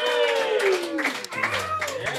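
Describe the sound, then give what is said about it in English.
Audience at a live show cheering and clapping on request, a loud burst of mixed shouts and whoops with hand claps that holds steady for about two seconds. “So tonight, if I announce a winner and you agree with me, I would like for you to cheer. Give that a shot right now.”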